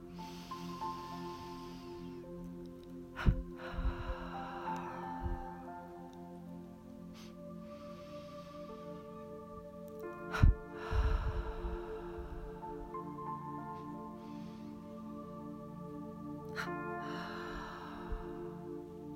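Deep breathing, each cycle a long inhale through the nose followed by a double exhale through the mouth, repeated several times. The soft airy breaths sit over a quiet, sustained musical drone.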